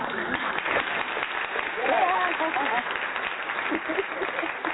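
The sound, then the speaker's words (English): Applause for a guest at a live event: a dense wash of clapping mixed with crowd voices, fairly steady throughout with no clear breaks. “Can we get a round of applause for this great queen that we got in the building tonight? We have to give her a proper round of applause”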